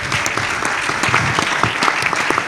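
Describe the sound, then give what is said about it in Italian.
A big round of applause for a navy captain: dense, continuous clapping from many people at an even, fairly loud level, with scattered sharper claps and no talk. “Un grande, grandissimo applauso”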